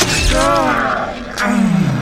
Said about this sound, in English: Then I plunge the blade into Vastator's side.